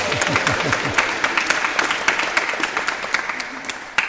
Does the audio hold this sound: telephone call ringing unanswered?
no